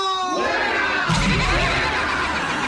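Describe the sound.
Live audience cheering and shouting that swells in after a brief snatch of music, a loud, busy mass of voices continuing to the end.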